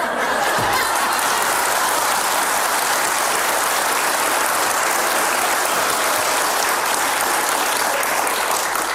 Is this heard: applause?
yes